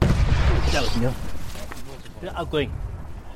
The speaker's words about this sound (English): Okay, that was a mortar going off just behind us from these positions.